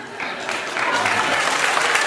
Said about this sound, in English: I'm not 100% sure why the audience is clapping when they found out that they're a bunch of hoes.